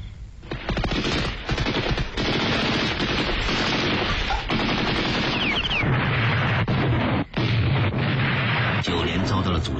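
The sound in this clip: Heavy machine-gun fire and explosions as enemy troops shoot fiercely at an infantry company from advantageous terrain in battle. The dense, rapid bursts stay loud and continuous almost throughout, with one brief dip near the end.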